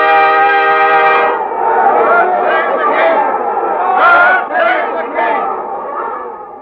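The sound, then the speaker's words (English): A crowd of subjects gathered outside a palace cheers and calls out in a loud, continuous swell of massed voices that rises and falls without a break. “I think the crowd expects us to get married quite soon.”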